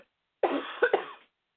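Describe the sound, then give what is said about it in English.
A person's coughing fit: one short, harsh cough made of a few quick, rasping bursts in a single breath, moderately loud and alone, ending abruptly in silence. “Oh, that's not good. Coughing fit starting.”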